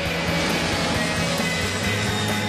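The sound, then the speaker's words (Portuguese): An airplane flying past, used as a radio promo sound effect, makes a loud, dense roar with a low rumble, holding steady and unbroken throughout. “Fique ligado no Estádio 97 e anote quantas vezes você ouve passar o avião do Estádio 97.”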